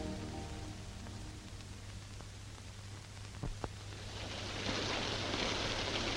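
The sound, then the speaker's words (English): Heavy rain pouring outside a hotel in Rangoon: a steady, dense hiss that swells louder toward the end, with a low steady hum beneath and a couple of brief sharp ticks midway. “It's pouring with rain outside the Hotel Continental in Rangoon.”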